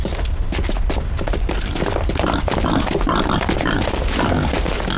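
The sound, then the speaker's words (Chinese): Wild boar grunting, a loud, continuous run of rough low grunts and snorts amid dense noise, with no talk. “是头野猪。”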